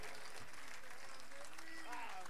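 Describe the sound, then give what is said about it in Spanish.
Faint, continuous applause for the musicians at a live tribute concert, a soft wash of clapping with voices mixed in. “aplauso para los músicos, por favor.”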